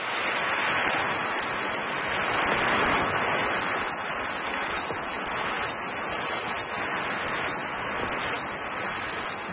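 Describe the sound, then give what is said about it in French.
Reconstructed insect sounds of a Jurassic forest: a dense, continuous, high-pitched chirring like crickets, steady and unbroken throughout with no other sounds. “C'est le son de certains insectes du Jurassique.”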